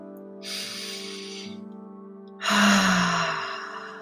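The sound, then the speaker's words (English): A deep breath is drawn slowly and heard alone, with two long, airy breath sounds; the second is louder and fuller and fades out gradually. “I invite you to take a breath.”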